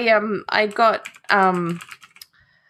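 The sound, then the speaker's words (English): Keystrokes on a shiny Razer computer keyboard click alongside a talking voice, ending in a few quick, crisp key taps as the voice stops. “I can't type quietly anymore because of my beautiful shiny keyboard, which, by the way, Razer software sucks donkey balls.”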